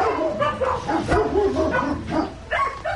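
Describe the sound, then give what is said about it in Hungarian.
A large dog barks, mixing a few deep, harmonic woofs with yips and whimpering whines in a fairly loud, continuous stretch. “Lajos Bence után, ide jöttünk egy nagyobb termetű kutyuskához.”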